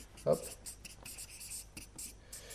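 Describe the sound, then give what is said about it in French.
Someone writes by hand during a lecture, producing a run of short, scratchy strokes in an uneven rhythm. The strokes are soft, with brief pauses between groups of them. “Je vais l'écrire parce que j'ai oublié de l'écrire.”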